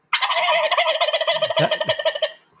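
A turkey gobble imitated with a diaphragm turkey call: one loud, rapid, rattling burst of many quick pulses, heard alone and lasting about two seconds before it cuts off.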